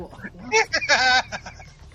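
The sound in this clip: A human voice imitates a bird's squawk with a few harsh, high, clucking bursts, the loudest in the middle.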